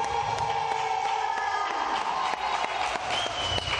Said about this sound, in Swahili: Jamani, makofi kidogo.